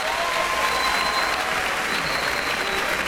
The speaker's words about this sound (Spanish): repartiendo los aplausos del público reunido la noche de hoy en la sala de conciertos del Centro Cultural Tacna